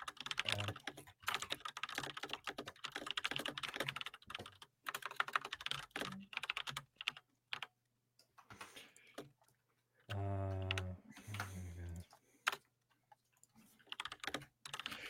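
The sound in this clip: Typing on a computer keyboard while writing: irregular bursts of quick, light key clicks broken by short pauses, quiet and close, with no talk.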